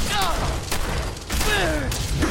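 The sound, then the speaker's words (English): Gunfire and a fiery missile shot ring out in a video game, with loud, dense bursts of blasts and booms running through the whole stretch, while voices are heard over the shooting. “What was that? Did someone just shoot like a fiery missile or something?”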